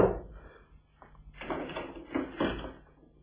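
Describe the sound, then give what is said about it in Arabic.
A door being opened in a radio drama gives a few faint, muffled bursts of movement and rattle, low in level, separated by near-quiet gaps. “افتح الباب.”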